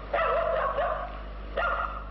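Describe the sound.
Dog barking on the roof of a house, giving two drawn-out, whining barks, the first long and the second shorter, over a steady low hum.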